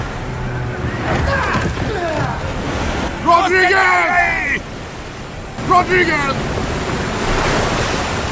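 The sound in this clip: A big ocean wave surges and crashes around a rowing boat in a loud, broad roar of surf and wind that swells and ebbs, with people shouting urgently over it.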